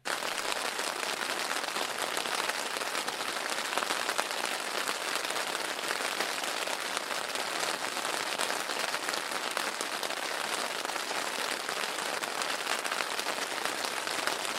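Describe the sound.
Steady rain falls in a dense, even patter that holds at a constant level throughout, with no pauses and no voices.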